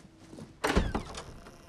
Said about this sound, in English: She presses a door open.